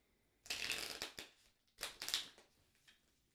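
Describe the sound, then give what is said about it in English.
Tarot cards being shuffled: a few crisp, papery riffling bursts, the first two long and loud with fluttering texture, followed by a shorter, fainter riffle, with no voices. “connecting to the cards by listening into the sound of them being shuffled”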